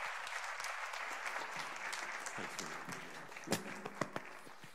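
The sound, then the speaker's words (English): Church audience clapping hands in welcome for a visiting pastor, dense steady applause that thins out near the end into a few scattered louder claps. “Would you put your hands together at Shaw and U City and welcome Pastor Jeff Wheeler.”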